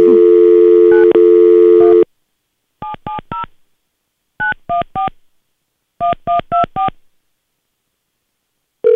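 A telephone dial tone hums for about two seconds, then touch-tone keys beep in three quick groups of three, four and five tones as a call to an electronics store is dialed, with another tone starting at the end.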